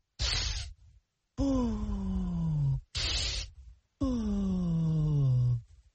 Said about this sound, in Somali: Haddaba aan kulligeen wada samayno neef qaadasho iyo neef sii dayn.